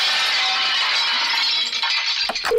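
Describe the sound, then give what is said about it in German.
Dishes crashing as canteen food is served on a treadmill: a sustained, noisy clattering rush that ends in a few sharper clinks and knocks. “Während unserer Fitnesswochen wird Ihr Fressen ab sofort auf dem Laufband ausgegeben. Sie hören es ja im Hintergrund.”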